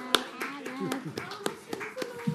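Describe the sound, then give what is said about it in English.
Scattered hand claps applaud Sunday school singers, a few sharp, irregular claps rather than a dense ovation, fairly faint, with voices talking throughout. “Applause for our Sunday school singers.”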